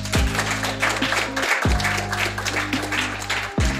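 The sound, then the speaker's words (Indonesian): Applause from an audience rings out over a looping musical jingle with steady low notes, the clapping continuous and loud throughout. “Nah, boleh banget dong Sobat Gamers, kasih mereka a round of applause.”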